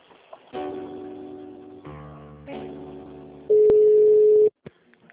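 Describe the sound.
Telephone line tones while a call to a company's HR department is transferred: soft, shifting sustained notes give way to one loud, steady tone lasting about a second, followed by a few faint clicks.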